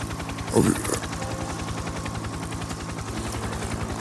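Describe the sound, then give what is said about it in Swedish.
A helicopter flies toward Slite on Gotland, its rotor giving a steady, rapid thudding beat at a fairly low level that continues evenly from start to finish. “Nu åker helikoptern ner mot Slite på Gotland.”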